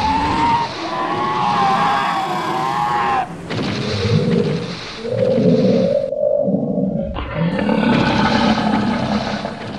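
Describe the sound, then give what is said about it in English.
Dino Riders dinosaurs, a small herd carrying reptilian riders, roar as they charge up out of a freshly formed chasm. Several harsh, growling roars and screeches overlap and cut in and out. “there's no mistaking the sound of the oncoming Dino Riders.”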